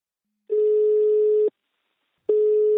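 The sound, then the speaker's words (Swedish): Outgoing ringback tone on a telephone call: two long, steady mid-pitched tones of about a second each, separated by a silent pause, loud and alone. “Nu tar vi en kort paus för jag ska ringa upp min samarbetspartner Invacare.”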